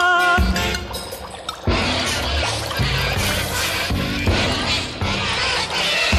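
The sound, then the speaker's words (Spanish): Ten accordions sound as if played underwater in the Paraná River: sustained reedy tones blur into gurgling, pouring water, with a run of loud, splashy surges and no voices. “Así sonaban sus acordeones bajo las aguas del Paraná.”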